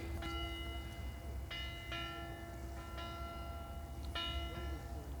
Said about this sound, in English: That's that buoy, it's just out in the channel there. In the Solent.